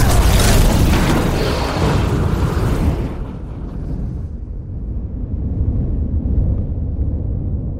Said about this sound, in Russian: Горячее оранжевое пламя отбрасывает пару в коридор.